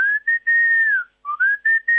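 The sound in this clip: Young eagles or buzzards give high, clear whistling calls: several sustained, nearly level notes with short gaps between them. One long note slides slightly downward, and no other sound is present.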